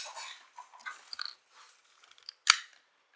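Faint, irregular crunching as someone chews crunchy, sweetened Crunch Berries breakfast cereal, with scattered small crackles and one sharper, louder crunch near the end.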